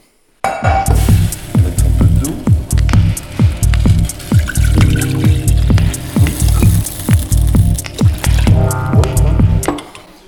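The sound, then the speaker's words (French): Water poured into a pot to be heated on an induction hob for cooking pasta: a steady loud rush lasting about ten seconds, with many clicking, knocking transients throughout. “Donc là, on met l'eau qu'on va chauffer avec l'induction en 2 secondes.”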